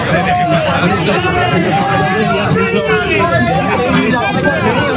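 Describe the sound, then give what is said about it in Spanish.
A crowd outside an institutional Ceuta Day event boos two government ministers, forming a dense, sustained mass of voices with drawn-out wavering jeers that hold steady in loudness throughout. “Sonidos de ayer abucheando a los dos ministros que acudieron al acto institucional por el día de Ceuta, el Masaid y Ángel Víctor Torres, que es el mando único. Escucharon abucheos fuera del acto”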